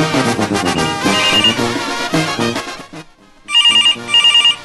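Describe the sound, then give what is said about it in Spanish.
A telephone rings in a radio studio during a call-in show: after a stretch of music fades out, two bursts of rapid, bright electronic trilling sound loudly in quick succession. “Ahí está sonando el teléfono.”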